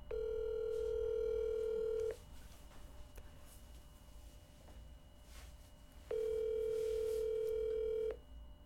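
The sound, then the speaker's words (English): Ringback tone of an outgoing telephone call: a steady, loud electronic hum plays in two separate bursts of about two seconds each, with a quiet gap of roughly four seconds between them. “We're calling the first number.”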